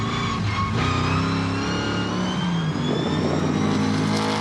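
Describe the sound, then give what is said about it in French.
A rally car's V8 engine with light engine tuning drones loudly and steadily, its rich harmonic growl wavering slightly in pitch as it runs. “Tout de suite, il y a quelque chose qui m'enchante les oreilles, c'est le son du moteur V8.”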